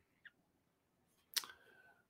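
Two short computer mouse clicks on a website link: a faint first click, then a louder, sharper one followed by a brief ringing tail, with quiet in between.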